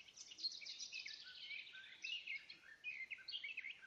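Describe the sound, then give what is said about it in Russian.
Starling song outdoors, a continuous faint stream of quick chirps, trills and whistling notes with no other sounds. “остановился, и мы слушаем пение. Я думаю, это скворец.”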